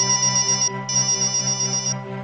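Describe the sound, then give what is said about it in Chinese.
Electronic ringtone of a phone announcing an incoming call: a loud, bright, pulsing melody that repeats with one short pause, heard on its own with no talk. “正准备吃呢，就接到了陆子强打来的电话”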